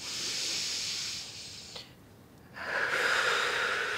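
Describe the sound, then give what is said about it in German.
A person breathing in through the nose during a medical examination, calming a rising panic: a long, airy hiss, a short quiet pause, then a second, louder drawn breath. “Lassen Sie uns mal gemeinsam durch die Nase einatmen, ja? Und nochmal.”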